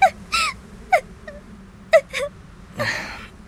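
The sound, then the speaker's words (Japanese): Tearful crying after an apology: several short, whimpering sobs whose pitch falls, broken by pauses and catches of breath, then a breathy, shuddering gasp near the end. “泣くなよ。”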